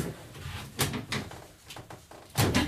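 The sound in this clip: A stiff, jammed window is forced open: a few short, dry knocks and scraping creaks, fairly faint, with brief pauses between them.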